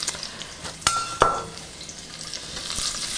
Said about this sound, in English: I'm just gonna take that over to the stove. Slide that into the olive oil.